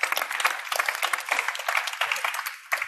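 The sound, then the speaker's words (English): An audience applauds a speaker being introduced. Dense, bright crowd clapping holds steady throughout with no pause. “Please give a big hand.”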